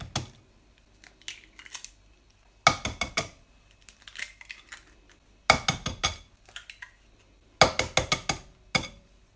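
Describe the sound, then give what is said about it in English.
Eggs, four of them, are cracked and added to a carrot pudding mixture, giving clusters of sharp clinks, taps and clatters from a bowl and utensils. The bursts come and go with short quiet gaps between them. “Next, I'm going to add the eggs. 4 eggs, more than 8 eggs.”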